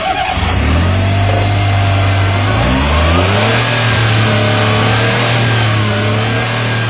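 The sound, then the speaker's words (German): A Smart car's three-cylinder engine revs as a loud, continuous low drone. The pitch dips once about midway, then climbs back and holds steady, with no voices. “Das ist ein ruhiger Dreizylindermotor”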